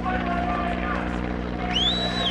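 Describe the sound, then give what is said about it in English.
An army helicopter swoops over a protest site with a steady, droning rotor and engine hum and a high whine, while voices from the crowd mix in. “The protesters shout at an army helicopter that swoops over the site, telling it to leave.”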